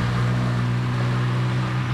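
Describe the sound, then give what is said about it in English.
Steady roar of vehicles blasting by at a busy three-way city intersection of Center Street, North 27th Street and Fond du Lac Avenue in midafternoon: a continuous loud rumble with a low engine drone, no separate pass-bys standing out. “And vehicles now, even at non-peak times like 2 p.m., continue to blast by.”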